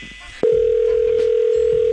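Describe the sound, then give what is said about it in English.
A dial tone follows a phone hang-up, starting abruptly with a click and then holding as a loud, steady, unbroken mid-pitched hum. “That last hang-up just cost you another 15.”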